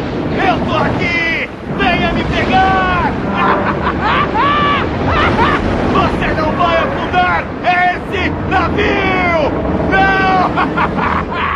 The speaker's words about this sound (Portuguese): Chama isso de tempestade! Sopra, seu miserável! Sopra!